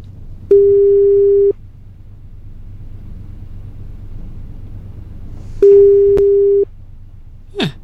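An outgoing phone call's ringback tone gives two long, steady low-pitched tones about four seconds apart over a low rumbling hum. A brief sharp sound follows at the very end.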